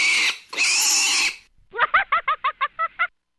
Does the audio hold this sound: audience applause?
no

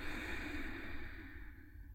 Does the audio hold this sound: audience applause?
no

